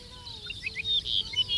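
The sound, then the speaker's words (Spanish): An arricotí lark sings a few short, high chirping notes in quick succession over a faint steady hum. “Arricotí, se llama como tal porque es una emulación de la onomatopeya que produce en el canto, el titutí.”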